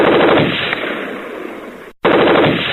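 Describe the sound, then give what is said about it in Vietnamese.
Rapid, loud gunfire from a submachine gun on a firing mount in wartime combat, a dense continuous burst that cuts off briefly near the end and then resumes just as hard. “Nòng tiểu liên của Mon nảy bật trên cái thiết bị bắn.”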